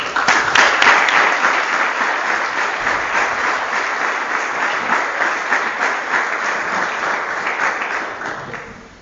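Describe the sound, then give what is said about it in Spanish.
Sustained audience applause at a lecture fills about nine seconds as dense, even crackling clapping. It holds loud and steady, then fades toward the end, with no speech over it. “Recibimos con un fuerte aplauso.”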